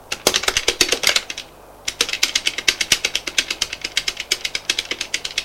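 Rapid typing on a computer keyboard: a loud, steady clatter of keystrokes that stops for a brief moment after about a second and a half, then resumes at the same brisk, even rhythm.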